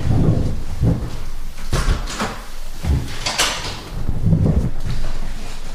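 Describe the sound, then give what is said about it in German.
A window being pushed shut indoors, with a few sliding scrapes and dull knocks over a steady low rumble of background noise. “mach mal Fenster zu hier.”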